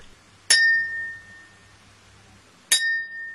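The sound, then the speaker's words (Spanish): Twice a cylindrical tear gas cartridge picked up at a street protest is struck, and each strike rings out as a bright, clear metallic note with shimmering overtones that decays slowly over a second or more. “saqué un cartucho de lacrimógena que había recogido en las cuadras más atrás y sonaba particularmente bien.”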